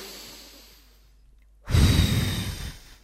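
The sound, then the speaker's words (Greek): A strong, deliberate exhale during a breathing exercise: after a quiet stretch comes one loud, breathy blow of air lasting about a second before tapering off. “Και εκπνοή. Θα κάνω κι εγώ μια δυνατή.”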